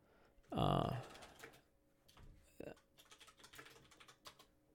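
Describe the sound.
Computer keyboard typing as a web search is entered, with many irregular light key clicks and one louder thump near the start.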